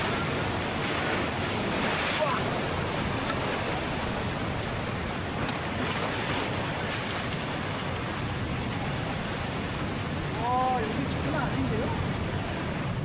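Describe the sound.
Strong sea swell and surf breaking on rocks at a coastal spot where gooseneck barnacles are harvested. A loud, continuous roar of rushing water with wind noise fills the whole clip, without clear gaps.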